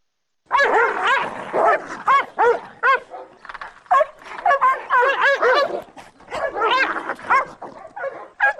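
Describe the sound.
Caucasian shepherd dogs fighting in a forest on the outskirts of Tbilisi: loud, dense barks, yelps and whining cries that overlap in rapid, uneven bursts almost without pause.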